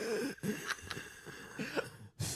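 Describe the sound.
A voice imitates wheezing with a few breathy, strained gasps and rasping exhalations, faint and separated by short pauses.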